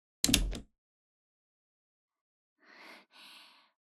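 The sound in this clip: A door shuts with one short, solid thud. After a pause, two softer breathy sounds follow.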